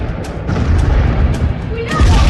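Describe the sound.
Explosions burst as bullets strike an alien ship in a radio drama. A few dull booms and bursts rise over a dense low rumble, with a voice talking through them.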